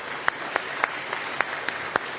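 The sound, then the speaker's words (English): Clapping honoring long-serving pastors during a church gathering: about eight sharp, evenly spaced claps at a steady rhythm, fairly faint, with no talk over them. “that's worth clapping for”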